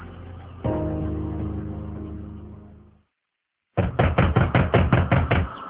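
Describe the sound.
Knocking on a closed door: a rapid run of firm, evenly spaced knocks follows a sustained droning tone that fades into silence.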